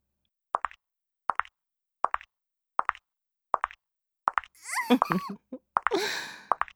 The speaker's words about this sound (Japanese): ヒールの音に興奮してるの？